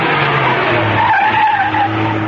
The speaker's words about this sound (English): Outside the building, she swung the car to a stop.